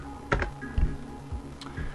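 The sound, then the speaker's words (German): Keys clicking on a computer keyboard as "clear" is typed into a terminal and Enter is pressed: a few sharp, quiet taps in uneven rhythm over a soft steady background. “Ich lösche jetzt den Inhalt des Terminals. Dazu tippe ich ein Clear, Enter.”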